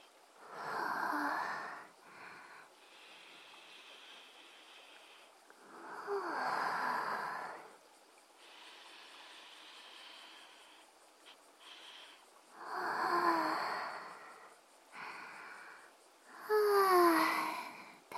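Breathing and sniffing right beside the listener: several slow, breathy swells of air rise and fade, separated by quieter stretches, soft and with no talk.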